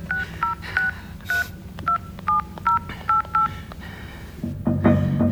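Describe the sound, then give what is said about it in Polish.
Telephone keypad tones as a woman ill with COVID dials for an ambulance: a quick, evenly spaced series of short two-pitched beeps, followed at the end by a louder rustling noise. “O, zadzwonię po karetkę.”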